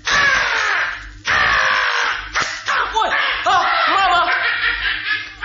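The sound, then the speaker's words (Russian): A crow caws in a rapid series of loud, harsh, rasping calls. The calls come in close bursts with short breaks between them. “Ворона! Ворона, она схватила два моих зернышка!”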